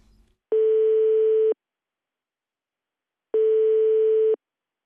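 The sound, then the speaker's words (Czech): A telephone line tone sounds while a call is being placed: two steady, mid-pitched buzzing tones, each lasting about a second, separated by a long silent gap, clear and alone. “Tak volám Vašíkovi.”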